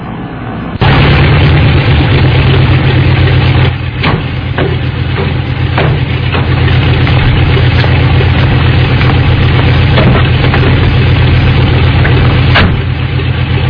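Steady, loud drone of an aircraft engine in flight shortly before landing. A strong low hum runs under a broad roar, and it continues without a break after a brief quieter opening.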